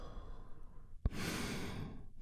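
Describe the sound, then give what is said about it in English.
A deep breath drawn in and then released during a guided relaxation exercise; quiet breathy air, a brief soft click, then a long, gentle sighing exhale. “we start by taking a big, deep, healing breath all together. Here we go. And release.”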